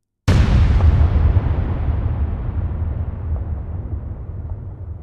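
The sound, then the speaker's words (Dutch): Detonation of an atomic bomb during a test, roughly 21 kilotons: one sudden, sharp blast followed by a long, deep roar that slowly fades and stays heavy in the low end. “En toen veranderde de lucht van donker naar fel licht. De bom werkte.”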